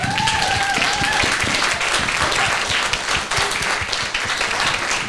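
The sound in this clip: Audience applause welcoming a panel of authors at a food-themed book talk, loud sustained clapping from many hands with distinct individual claps crackling through a dense, steady wash.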